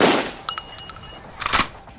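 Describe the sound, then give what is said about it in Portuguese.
Gunfire in a video game as shots are fired into a house: a loud burst of cracks at the start, then sharp metallic pings and a second cluster of shots, with no voices. “Começou a atirar para dentro da casa, agora sim, corre.”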